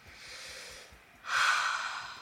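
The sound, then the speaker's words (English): A deep breath during a tapping relaxation exercise: a soft airy breath is followed by a louder, fuller rush of air, with no talking. “And I let myself breathe right now. I let myself breathe right now.”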